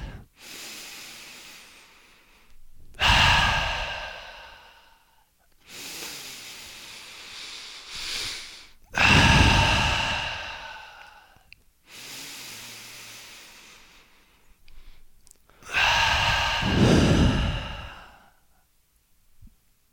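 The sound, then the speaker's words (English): Three deep breaths, evenly spaced, each a softer airy inhale followed by a louder, sighing exhale with a rushing, breathy texture, and brief quiet gaps between them. “And take 3 deep breaths and smile.”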